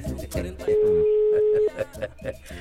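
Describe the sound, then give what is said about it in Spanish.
A telephone ringback tone on an outgoing call sounds as one long, steady, mid-pitched tone lasting about a second, heard beneath people talking. “Y está timbrando ya, claro.”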